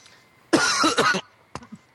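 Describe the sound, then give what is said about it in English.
A person clears their throat with a chesty cough: one harsh, rasping burst, then a short, quieter cough after a brief pause. “Or that, or you're just clearing his throat.”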